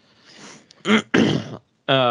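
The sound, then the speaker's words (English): Someone clears their throat in a few harsh, rasping bursts, loud and close, with the last burst turning into a voiced sound. “All right, I'm gonna excuse me. We're getting to the big ones here. Let me clear the throat and get ready here.”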